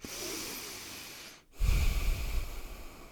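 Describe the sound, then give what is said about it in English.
A deep breath taken during a guided relaxation exercise: a long, airy inhale, a short pause, then a louder, rushing exhale with a breathy low rumble that fades slowly. “Close your eyes. Take a deep breath with me here.”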